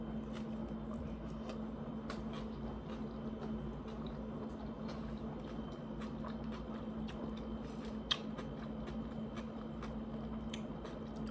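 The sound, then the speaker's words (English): Someone eats pizza, and faint bites and chewing crunches repeat steadily over a constant low hum. The irregular mouth noises keep going without speech. “Let's see how this pizza tastes.”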